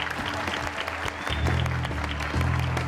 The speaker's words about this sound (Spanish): ¡Un aplauso, por favor, para la gran Deisus!